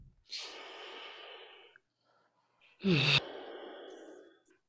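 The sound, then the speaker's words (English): Deep breaths taken during a coaching training session: two long, airy breaths separated by a pause, the second opening with a loud, sharp rush of air before trailing off. “Okay, everyone take a deep breath. And another one.”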